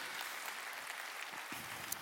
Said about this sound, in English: Come on, you can clap it up.